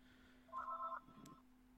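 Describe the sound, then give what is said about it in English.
A telephone rings in one short electronic burst, a bright trilling tone lasting about half a second, then a briefer, softer blip. The ringing is faint over a steady low hum. “See, that's Toei coming to phone me.”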